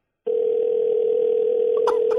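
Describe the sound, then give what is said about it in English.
An unanswered telephone call produces a single steady mid-pitched tone that begins after a brief silence and holds unbroken. A couple of faint clicks sound near the end. “Calling Tab Patterson. Just find out what's going on. No, he's not answering his phone.”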